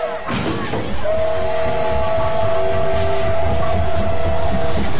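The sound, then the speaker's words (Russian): A steam train at Brest railway station sounds a long, steady, high whistle over loud hissing steam and a low, continuous rumble, with passengers crowding onto the cars. “Толпа пассажиров бросается осаждать вагоны поезда. Брест. Железнодорожный вокзал.”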